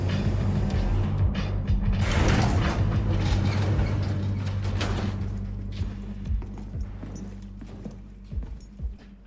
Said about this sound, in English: An elevator rises up its shaft.